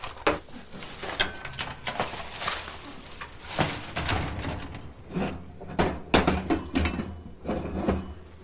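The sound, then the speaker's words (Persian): Kitchen clatter as food is poured into a pot to heat: a busy run of sharp clanks and knocks with many metallic transients over a low background rumble, no voices. “دریا غذا رو میریزه تو قابلمه که داغ بشه.”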